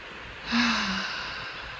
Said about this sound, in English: Nice deep breath.